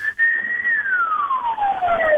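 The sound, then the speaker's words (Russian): A siren sounds from a passing vehicle as a single fairly loud tone that holds steady briefly, then glides smoothly downward in pitch. “Вот что за сирена там? Вот что это проехало?”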